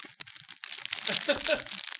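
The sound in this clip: Crinkling of shortbread packaging, a brief, quiet run of crisp rustles and crackles that swells in the middle and lasts about two seconds.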